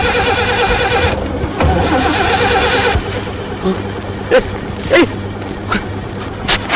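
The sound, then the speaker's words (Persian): A car's starter cranks an engine that will not catch, on an older car that fails to start after many tries: a harsh, buzzing churn for about three seconds, then a quieter stretch with a few sharp clicks. “صد تا استارت هم بزنی روشن نمیشه”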